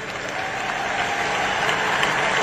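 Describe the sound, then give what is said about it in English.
Applause from an audience at a speech at a black college, dense and steady clapping from a crowd that holds a constant loud level throughout. “if you say that white supremacy is the single greatest threat to our homeland to an audience at a black college, you're going to get applause, which he did.”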